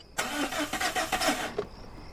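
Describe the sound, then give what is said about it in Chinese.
A car engine is cranked with the ignition key and fails to start. The starter gives a rapid rhythmic chugging for about a second and a half, then cuts off without the engine catching. “再打， 别停，这钥匙都快拧断了都。 你从哪买的破车？”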